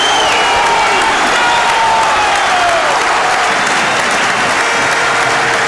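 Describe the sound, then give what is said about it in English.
Football stadium crowd applauding loudly and steadily as the teams walk out at Wrexham versus Boreham Wood, a dense continuous wash of clapping with some cheering mixed in. “wait for the noise, here come the teams.”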